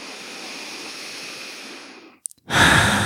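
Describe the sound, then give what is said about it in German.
A deep breath in and out during a guided relaxation exercise: a slow, soft rushing inhale, a brief pause, then a louder, sighing exhale. “schließ jetzt nochmal die Augen, nimm ein paar tiefere Atemzüge ein und aus.”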